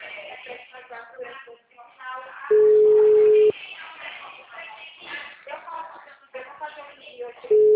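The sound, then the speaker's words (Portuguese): A telephone busy tone after a dropped call: a loud, steady, low beep lasting about a second between stretches of talk, with a second beep starting at the very end. “a ligação caiu, meu amor? Tô, tá bem? Acho que ficou tudo mudo.”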